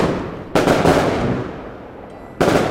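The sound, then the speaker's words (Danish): Fireworks go off as the finale of a large Kosovo wedding celebration at a hotel: two loud booming bursts, each trailing off in a long crackling decay. “En aften på vores tur bliver der afholdt et kæmpe Kosovo-bryllup på vores hotel. Og imens fyrværkeri som afslutning lyser himlen op i 1000 farver,”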